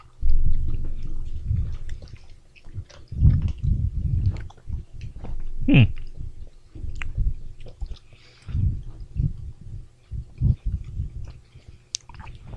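Chewing on Thai Mamba fruit chews candy, with moist, squishy mastication in many irregular bursts and short pauses between them.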